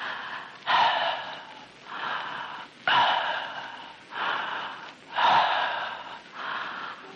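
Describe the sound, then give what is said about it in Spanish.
Deep, audible breathing through the open mouth, slow cycles in which three loud, rasping breaths alternate with softer ones in a steady rhythm, without talk. “respire más o menos así. Observe bien. Esta respiración tiene que ser hecha solamente por la boca.”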